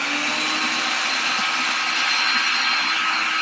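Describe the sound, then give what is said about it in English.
A blender roars as it purées watermelon, pineapple and papaya, a loud, steady whirring drone that holds level without pause. “the watermelon blender. Huh? I said the watermelon blender. Yes. Watermelon, pineapple, and I think papaya. Turn that off.”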